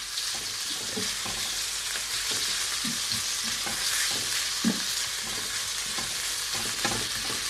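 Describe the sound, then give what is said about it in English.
Bite-sized chicken pieces fry in a pan with a steady, loud sizzling hiss, while repeated soft scraping and knocking sounds of stirring break through at irregular moments. “I've cut my chicken into bite-sized pieces. So this cooking off part should only take, you know, 3 or 4 minutes or so. So I'm just going to move it around the pan.”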